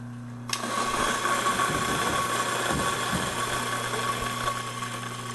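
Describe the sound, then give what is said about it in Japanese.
Loud, steady whirring grind of a retro coffee mill grinding a Brazil Santos blend of beans. The motor starts abruptly after about half a second over a low hum and runs continuously to the end. “まずはミルでね、豆入りますけど。ちなみに今日のお豆はどんなお豆なんですか。 ブレンドのお豆になりまして、ブラジルのサントス系です。”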